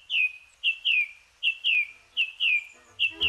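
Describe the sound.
Bird chirps in woodland at dawn: bright, high notes that each slide slightly downward, coming in quick pairs at a steady rhythm over an otherwise quiet background.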